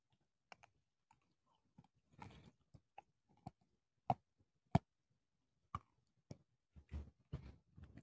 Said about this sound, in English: I am finishing my lifesaver.